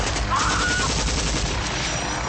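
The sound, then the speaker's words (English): Heavy gunfire in a firefight, a dense, rapid stream of shots that stays loud and unbroken throughout. “I'm taking fire. I'm taking hits all over our farm.”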